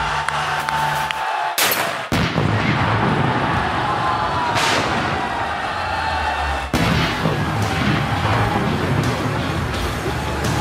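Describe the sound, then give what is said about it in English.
Gunshots fired at a Prius car: a few loud, sharp cracks burst out of a dense, noisy background that stays loud from start to finish. “It's a Prius. She's shooting a Prius.”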